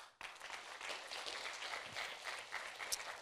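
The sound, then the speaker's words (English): A church audience applauds to congratulate members being named. Clapping starts sharply and continues as a steady, moderately loud patter. “to show your pleasure to God and to these ones through applause”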